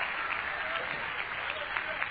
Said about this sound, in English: Would you clap again? Would you just rejoice?